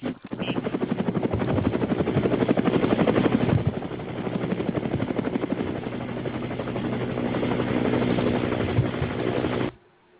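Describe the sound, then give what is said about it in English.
A helicopter rotor gives a loud, steady, rhythmic chopping whir with a fast pulsing beat. It holds for nearly ten seconds, then cuts off abruptly near the end. “I think your helicopter's in danger. Oh, wow. That's my helicopter.”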